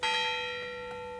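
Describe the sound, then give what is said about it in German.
Church bell of a castle church on a hilltop ringing: a single struck tone that sustains and slowly fades, clear and steady against a still background. “Auf dem Schlossberg in Altenburg ist es still, sommerschattig, aber mit den Glocken der Schlosskirche schon musikalisch.”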